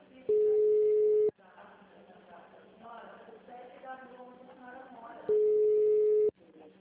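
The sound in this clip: A telephone ringback tone while waiting for an answer: two steady, one-second buzzing tones separated by a long pause, with faint voices in between.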